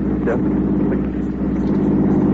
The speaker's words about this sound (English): that a car coming? A truck.